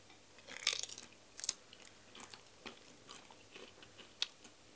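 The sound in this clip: Crunchy chewing of food topped with wasabi pickles, made up of several irregular bites and crunches, some sharper than others, fairly faint with no talking.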